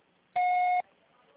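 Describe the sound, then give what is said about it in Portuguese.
A single voicemail beep: one steady, clean electronic tone lasting about half a second, loud against near silence before and after. “Sua chamada está sendo encaminhada para a caixa postal e estará sujeita à cobrança após o sinal.”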